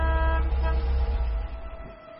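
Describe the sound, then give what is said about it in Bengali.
A familiar car horn sounds from a garden: one steady, sustained blare lasting about two seconds, with a bright, slightly buzzy tone that tapers off a little at the end. “এমন সময় বাগান থেকে শোনা গেল শ্যামলের গাড়ির সুপরিচিত হর্নের আওয়াজ।”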